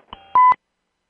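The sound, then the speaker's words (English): An electronic beeper sounds to signal an incoming call on a call-in show: a short faint tone, then a louder, steady high electronic beep that cuts off abruptly, followed by silence. “Hey, you got a beeper. Ron, I think we have a call.”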